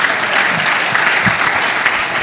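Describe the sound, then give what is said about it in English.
Applause rises from an audience at a stage event: loud, continuous clapping from many hands, with a few sharper individual claps standing out from the even roar. “I just do that so you clap while I'm on stage and I feel important.”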